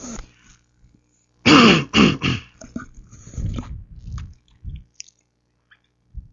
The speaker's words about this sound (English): Now we swish a little bit of saliva around the throat and check one.